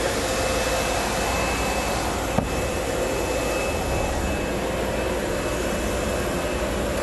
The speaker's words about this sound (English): He takes plastic to cover it up so it makes a nice seal. So he's gonna seal the foam.